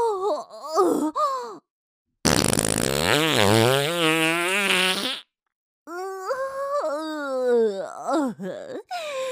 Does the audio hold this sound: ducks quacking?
no